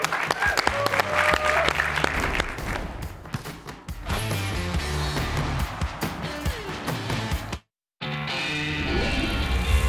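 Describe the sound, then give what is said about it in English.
Audience applause for a guest at a BYU basketball gathering. It is loud and steady over music-like tones, breaks off in a brief silent gap near the end, then resumes. “Let's give a hand for Mihailo Boskovic with Boskovic forces on the floor.”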